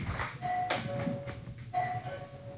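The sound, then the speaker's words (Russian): A smart-home doorbell rings in another room, heard from a balcony: a faint two-tone chime sounds twice over steady background noise. “И действительно, автоматизация работает. Звонок звучит в другой комнате.”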